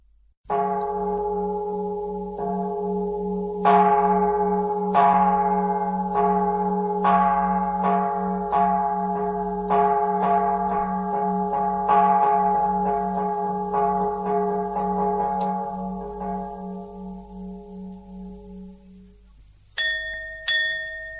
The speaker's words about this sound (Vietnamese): Kìa, tiếng chuông chiếu mổ bắt đầu, tôi phải vào Phật điện lo thắp hương tụng niệm.